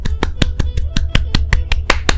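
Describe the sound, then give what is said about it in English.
One person clapping his hands for himself: a steady, evenly spaced run of sharp, crisp claps, each with a short low thump, repeating at a brisk regular pace throughout. “I'm clapping for myself because God did it.”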